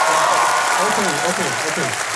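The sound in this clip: An audience claps in answer to a question at a live quiz, a dense burst of clapping at first, with a voice talking over it as it continues.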